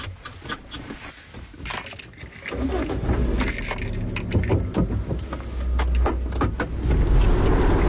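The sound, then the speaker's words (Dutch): Interior of a small car on the road on the way to Eindhoven: steady engine and road rumble that grows after a couple of seconds, with keys jangling and light rattles throughout. “Ik zit hier in mijn autootje. Ik ben onderweg naar Eindhoven.”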